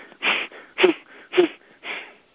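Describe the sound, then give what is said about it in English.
Four forceful breaths blown out through the mouth during a breathing exercise, each a loud rushing burst of air separated by short pauses in a steady rhythm, with no talking. “we're going to take a deep breath in, and then through the mouth we're going to do a series of expulsions.”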